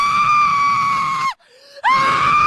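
A girl screams in total darkness: two loud, piercing, high-pitched sustained screams with a short silent break between them.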